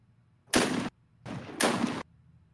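Gunfire from a gun in a video game, heard as three loud bursts of about a third of a second each. The last two nearly run together and the middle one is quieter. No voices.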